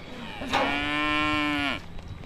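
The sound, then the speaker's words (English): A single cow moos in a farm paddock, one long, steady, low-pitched call lasting just over a second, heard alone against a quiet background. “Now we're walking through the yard, and you've got a few cows lingering in a paddock nearby.”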